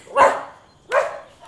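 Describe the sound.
A little dog barking: two sharp, bright barks about three quarters of a second apart, each trailing off, then a much fainter short yip at the end. No voices.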